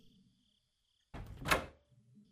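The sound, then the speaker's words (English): A door being closed produces a single broad whooshing thud that swells and fades over roughly half a second. Faint low background noise sits before and after it. “Please, close the door.”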